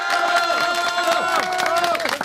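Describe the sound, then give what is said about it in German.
A crowd at a live prize-winner celebration in Breitenau cheers and whoops loudly, many voices shouting over a dense wash of clapping that holds steady throughout. “Und jetzt brauchen wir natürlich einen riesengroßen Applaus.”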